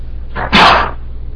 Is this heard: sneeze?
yes

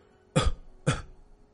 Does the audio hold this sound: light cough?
yes

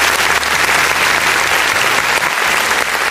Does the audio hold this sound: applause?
yes

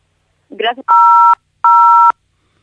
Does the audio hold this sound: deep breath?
no

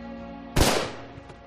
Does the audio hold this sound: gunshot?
yes

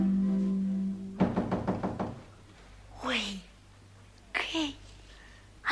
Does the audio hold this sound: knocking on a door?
yes

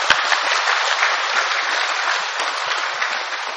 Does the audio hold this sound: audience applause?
yes

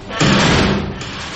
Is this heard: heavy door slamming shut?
yes

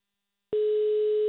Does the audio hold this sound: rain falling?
no

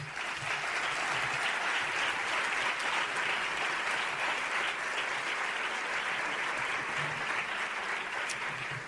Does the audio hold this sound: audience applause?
yes

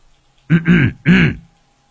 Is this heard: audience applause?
no

